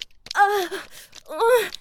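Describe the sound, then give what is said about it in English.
Groaning from a man, two drawn-out voiced moans that slide downward in pitch, each lasting about half a second and separated by a short quiet gap. “What's wrong, dude? I'm too busy groaning to talk shit now?”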